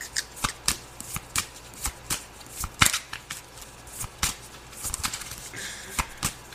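Tarot cards from a custom deck are shuffled by hand, giving many crisp, papery riffles and snaps in an uneven rhythm, fairly soft, with no voices.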